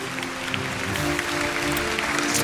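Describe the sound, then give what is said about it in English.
Audience applause during a debate competition: a steady, dense rush of clapping with a low, sustained hum running underneath for the whole clip. “Okay, let's applaud you.”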